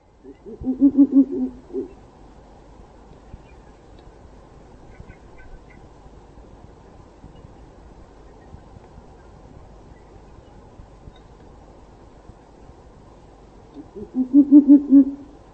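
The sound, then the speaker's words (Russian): Owl hooting: two bursts of several rapid, low, pulsing hoots, one at the start and one at the end, with a long, quiet gap between them. “Сова.”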